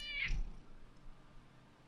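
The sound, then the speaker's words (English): A cat gives a single short, high-pitched meow right at the start, then only faint low background noise remains. “Ow, you fucking cat.”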